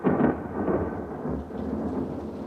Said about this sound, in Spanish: Fuera hay tormenta.